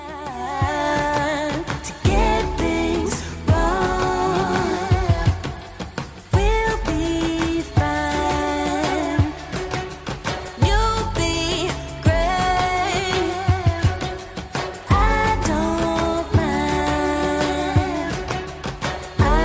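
Pop song from a girl group's new EP: a full, dense arrangement plays loudly and steadily throughout, with a regular beat and layered melodic lines and no talk over it.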